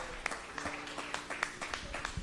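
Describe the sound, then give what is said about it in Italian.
Audience applause made of scattered, distinct hand claps in an uneven rhythm at a moderate level, with no voices standing out. “Facciamo un applauso anche al pubblico che sta ascoltando”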